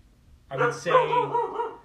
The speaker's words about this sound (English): I would say we have a dog on the pod, folks.